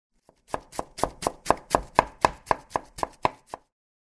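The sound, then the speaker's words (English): A knife chops food on a board in a home kitchen. There is a faint first tap, then about a dozen crisp, evenly spaced chops in a steady rhythm, with no talking. “I can't cut this well.”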